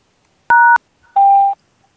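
Telephone keypad tones on a voicemail line: a short, sharp dual-pitched keypress tone, then after a brief gap a longer, lower steady beep, both loud and alone.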